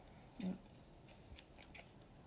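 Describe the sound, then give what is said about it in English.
Scissors being opened and closed, giving a few faint, crisp snipping clicks spaced irregularly against quiet background hiss. “Do you move both parts of the scissors or just one?”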